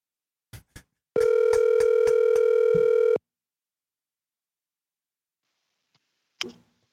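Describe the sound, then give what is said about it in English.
Ring tone of an outgoing telephone call: two quick clicks, then one steady buzzing ring of about two seconds, silence, and a final sharp click near the end. “we're gonna hit up B. Davis real quick. Let's see if B. Davis answered the fucking phone.”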